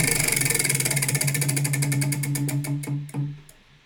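A selection wheel spun during a horror-movie picks game clicks rapidly at first. The ticks gradually slow and spread apart until one last firm click near the end, over a steady low hum.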